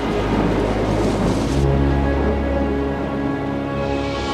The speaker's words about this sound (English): Dark clouds boil overhead, then unleash a downpour.